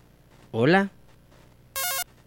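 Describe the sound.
An incoming telephone call rings as one short electronic ringtone burst of stepped tones, heard just after a brief spoken voice.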